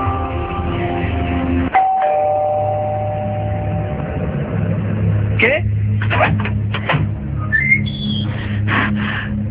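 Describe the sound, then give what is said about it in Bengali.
A home doorbell rings: a few short, bright tonal chimes sound over a continuous low background bed. “আর ঠিক তখনই calling bell বেজে উঠলেন।”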